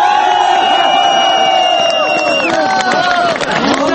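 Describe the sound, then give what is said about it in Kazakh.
A loud rally crowd in Almaty shouts and chants, with sustained voices and whoops rising over dense crowd noise. “Жиынға қатысқандардың сөйлеген сөздерін осылай онда келгендердің барлығы қол шапалақтап, Нұрсұлтан кет деп ұрандатып тұрды.”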